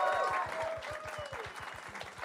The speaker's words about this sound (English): Keep clapping!